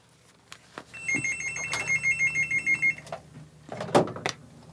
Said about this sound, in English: Well, it sounds like we might have a caller.